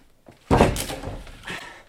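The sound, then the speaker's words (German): A door being kicked in: one heavy, sudden thudding impact, followed by a fainter second knock, with no talk. “So kriegst du die Tür nie auf. Geh weg, ich trete sie ein.”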